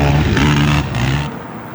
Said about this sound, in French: Qu'est-ce que vous regardez là? C'est une très bonne question. Une bataille de quad, c'est ça? Dans la boue, oui. Enfin, aujourd'hui, c'est dans la boue.